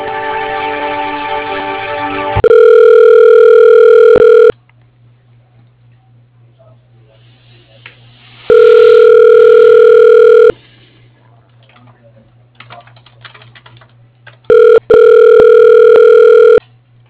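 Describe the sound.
Telephone ringback tone while a call is transferred to voicemail: three steady two-second tones separated by about four seconds of near silence, following a brief voice at the start.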